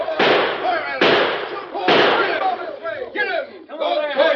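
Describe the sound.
Gunshots in an old western shootout ring out as three loud, sharp cracks spaced about a second apart, each trailing into noise, followed by a jumble of shouting voices.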